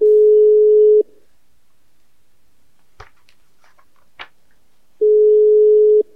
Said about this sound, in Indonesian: sekarang kita mau nelpon saja ya guys